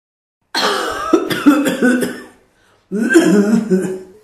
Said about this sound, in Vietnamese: Lâm Trúc lớn tiếng ho khan